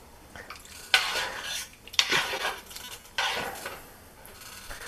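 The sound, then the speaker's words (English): A utensil scrapes and clinks against a bowl as ingredients are stirred together, in three distinct bursts with quieter rubbing between them, fairly faint overall. “But I'm going to now stir this all together.”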